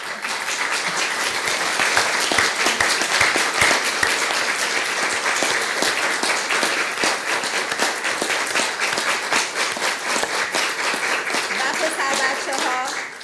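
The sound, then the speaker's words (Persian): Sustained audience applause at a gathering in support of girls risking their lives for freedom: dense, even clapping that holds steady at full strength for the whole stretch and tails off slightly at the very end. “میخوام دعوتتون بکنم که متحدن برای تک تک این دختر بچه هایی که با امید برای آزادی دارن جونشون رو واقعا میذارن کف دستشون، یه دست بزن.”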